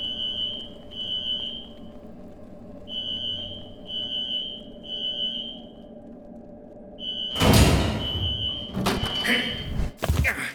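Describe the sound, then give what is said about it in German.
A building alarm sounding during an evacuation: a high, piercing electronic tone pulsing in short repeated groups over a low background hum, then heavy thuds and banging toward the end. “Den Alarm bitte mal ausschalten? Schon dabei. Ich lasse ihn im restlichen Teil des Gebäudes weiterklingeln.”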